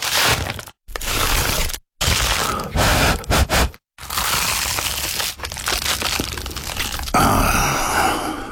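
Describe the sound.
Loud, dense crunching of someone biting into an award-winning pie. Crackling crunches come in several bursts broken by brief silences, then carry on as a longer stretch of crackling.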